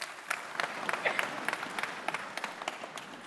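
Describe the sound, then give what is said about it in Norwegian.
Audience applause for an evening speaker at a live event: many hands clap in a dense, uneven patter that stays fairly even in loudness throughout. “Han fortjener en klapp.”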